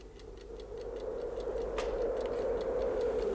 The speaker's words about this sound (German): Ich stellte den Wecker auf eine Kabelrolle.